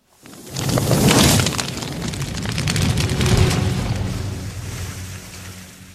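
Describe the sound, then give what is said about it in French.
A bird suddenly bursting into flames with a loud, roaring whoosh of fire. The burst swells sharply, then rumbles on and slowly fades over several seconds. “votre oiseau, je n'ai rien pu faire, il a pris feu tout à coup.”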